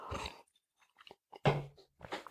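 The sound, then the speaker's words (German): A person takes a sip of water, heard as a few soft slurping and mouth-click sounds in short bursts separated by brief silences, with no talking. “wir nehmen nochmal gerade einen Schluck Wasser”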